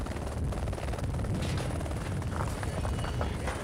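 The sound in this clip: A cargo helicopter flying supply loads to mountain huts, its rotor a loud, rapid, even chop that pulses steadily from start to finish with no voices.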